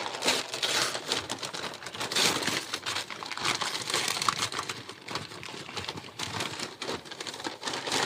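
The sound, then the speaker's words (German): Wrapping paper crinkles and rustles as a gift is unwrapped, a dense, continuous run of crackling bursts that vary in loudness throughout, with no voices. “Lass uns jetzt eine Stunde das Geschenk auspacken. Ich mache das schnell.”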